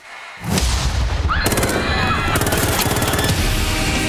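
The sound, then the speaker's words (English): Gunfire from a film trailer for Destroyer: a heavy boom opens into loud, dense volleys of rapid automatic shots that rattle on without pause to the end. “She just shot a lot of people.”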